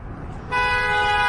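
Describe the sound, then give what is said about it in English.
A car horn honks in one sustained, bright blast that starts abruptly after a moment of low road rumble and holds steady and loud to the end. “And somebody just honked at you guys saying hi.”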